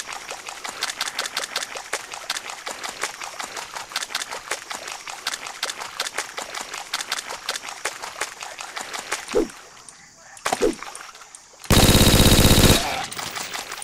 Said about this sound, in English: You've picked up machine gun tape. The Omega SCR machine gun.